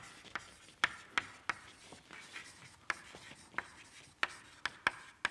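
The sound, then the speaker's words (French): An equation being written by hand during a physics lecture: many sharp taps and short scratches in an irregular rhythm, with a faint hiss between strokes. “si j'écris une équation pour, euh, pour euh, représenter ce que je viens de dire”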